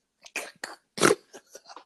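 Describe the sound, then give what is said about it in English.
A person gives one short, forceful snort through the nose, set among several fainter breathy puffs and throat sounds. “Did you just snort?”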